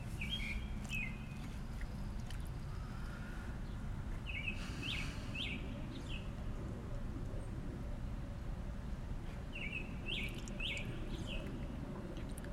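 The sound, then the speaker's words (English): Birds chirp faintly in a few quick bursts of high, bright tweets, separated by long gaps, above a steady low background rumble. “And as you hear the birds chirping in the background”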